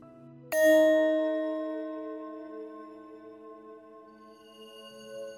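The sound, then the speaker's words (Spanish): A small meditation bell is struck once to open a session, a clear bright ring that sounds out suddenly and then decays slowly, its tone lingering and fading across several seconds with no talk. “Voy a sonar la campanita al empezar y al terminar.”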